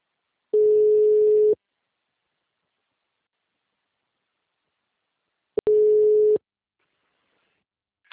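A telephone ringback tone plays while a caller waits for an answer: two steady, mid-pitched beeps, each about a second long, separated by a long silent gap.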